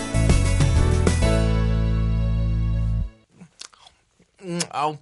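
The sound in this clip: Chewing a peanut butter sandwich, a few soft crunchy bites heard once a loud held musical chord stops, followed by a brief voice.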